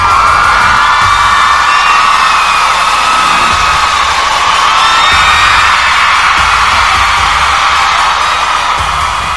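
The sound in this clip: A cheering crowd ovation used as a sound effect: a loud, continuous wall of whoops, shouts and cheers that holds steady for about nine seconds.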